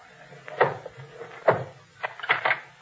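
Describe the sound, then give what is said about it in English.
Knocking on an inn door with the handle of a sword: a few heavy, hollow thuds spaced unevenly, with a quicker pair closing the series. “I'll knock with the handle of my sword. That'll rouse them.”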